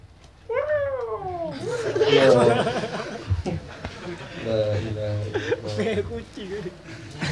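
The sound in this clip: A cat meows, opening with a drawn-out, wavering cry whose pitch falls, followed by shorter mews while people talk over it.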